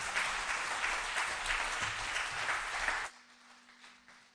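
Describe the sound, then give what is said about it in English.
An audience applauds the choir at an Easter morning church service, a dense burst of clapping lasting about three seconds before it cuts off to a low, quiet hum. “Why don't you give the choir a hand this morning? Didn't they do an amazing job?”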